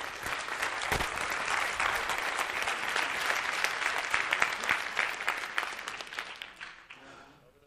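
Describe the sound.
Audience applause after a business presentation about EMS sports equipment: steady, dense clapping that holds for several seconds and then fades out at the end.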